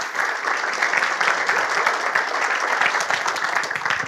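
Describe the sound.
A church audience applauds to welcome the preacher. The clapping is dense and steady, holding at an even loudness for about four seconds without a break.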